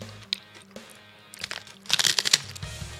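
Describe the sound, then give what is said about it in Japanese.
Crisp crunching of a large okaki rice cracker being bitten and chewed: a cluster of sharp, brittle cracks grows loud mid-clip over a faint low background. “このおかき大きいのよ”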